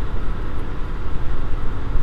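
Steady low rumble of road and engine noise from a car being driven, continuous and fairly loud across the whole stretch with no break or change.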